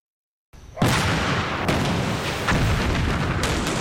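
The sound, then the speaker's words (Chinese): An explosion tears through a base after a moment of silence: a loud, broad blast swells into a sustained roaring rumble, and a few further bursts break through it. “炸了！”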